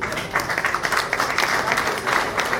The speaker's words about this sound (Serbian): za njih molim vas ja velike aplauz